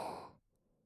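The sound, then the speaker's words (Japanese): A single deep breath during a relaxation breathing exercise. It is short and breathy, cuts off after under half a second, and gives way to near silence. “呼吸を整え、リラックスするため深呼吸をいたしましょう。吸って、”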